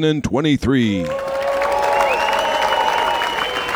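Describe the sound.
Loud, sustained audience cheering and applause follows a brief stretch of talk, with a dense wash of clapping and a few raised voices holding steady to the end.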